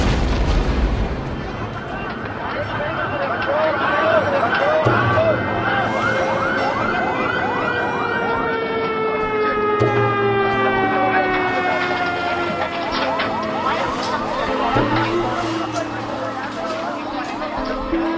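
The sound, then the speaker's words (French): Emergency sirens wail and sweep up and down continuously over a dense low rumble, following an explosion at a bus in Karachi. “S'ensuit une formidable explosion, des sirènes, des cris.”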